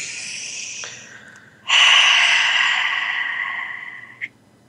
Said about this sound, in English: Great way to do that is to take a big grounding breath.